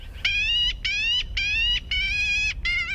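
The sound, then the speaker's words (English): A black-billed magpie in bare March trees over open country gives five harsh, nasal, raspy calls in a steady series. Each lasts about half a second, and the last is cut short. “The magpie's raspy call is bold as brass.”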